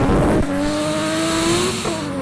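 A Nissan R32 race car with an RB26 engine racing, its loud engine roar climbing steadily in pitch, with a sharp change near the start and another shift near the end.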